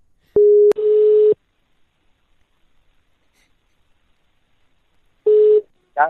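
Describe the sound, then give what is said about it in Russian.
Telephone ringing tones while a call is placed, starting with a short click. Two long, steady, mid-pitched beeps follow, about five seconds apart with silence between them. “Сейчас я еще позвоню Данте этому.”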